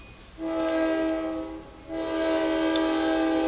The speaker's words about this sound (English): I'll try to read nice and loud while the horn is blasting.